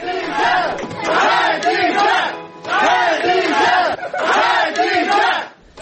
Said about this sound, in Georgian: ეს შეძახილები კი შარშან 5 დეკემბერს ისმოდა ბაქოში, როცა ხადიჯას მეგობრები სამბაილის რაიონულ სასამართლოსთან შეიკრიბნენ